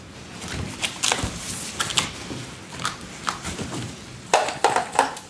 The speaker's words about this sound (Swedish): Hänger jag det till tork över en annan plywoodskiva.